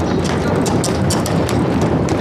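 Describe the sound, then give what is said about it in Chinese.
Hooves of a horse pulling a carriage clip-clop in a regular beat beneath a loud, steady wind-like roar, with no talk. “停停停停！哎，把马车搁这边，快点快点，”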